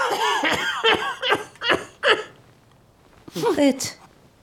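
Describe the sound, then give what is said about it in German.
A man coughing in a bedroom: a run of about five harsh, voiced bursts in quick succession, then a pause and a second short cluster of coughs. “plagt dich der Husten wieder?”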